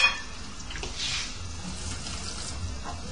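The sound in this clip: Water pours into a pot to cover a veggie-meat stew, a faint, steady running and splashing that continues throughout with small fluctuations.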